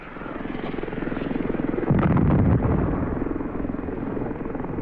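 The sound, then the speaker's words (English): A Huey helicopter flies with a steady, loud rotor and engine drone that swells briefly near the middle. The aircraft is a Vietnam-era gunship carrying six wire-guided anti-tank missiles in launching pods. “Huey helicopters were used, each carrying six TOW missiles in its launching pods.”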